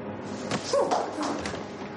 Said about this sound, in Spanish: Pero no. Le empuja contra la pared.